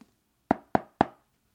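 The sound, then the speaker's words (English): Three evenly spaced knocks on a front door, sharp and fairly loud, each with a short resonant decay, standing alone against silence. “I arrived on Sunday and knocked on her door.”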